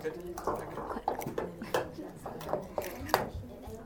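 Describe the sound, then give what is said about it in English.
Eggs being cracked into mixing bowls during a children's German Stuten bread-baking workshop: many short clicks, taps and light clatters of shells and bowls at an irregular rhythm, with voices talking underneath. “So now you just grab the egg, sort of crack it, and just put it in.”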